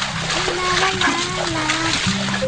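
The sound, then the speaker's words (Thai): Water splashing and sloshing in a bath while someone washes with soap: continuous splatter at a steady level, with a voice mixed in underneath. “เมื่อเขาล้างตัวด้วยสบู่และน้ำเขาก็เริ่มรู้สึกดีขึ้น”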